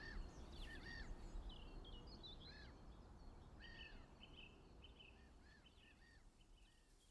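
Birds singing at waking time, with many short bright chirps and calls scattered over a low steady rumble, all faint.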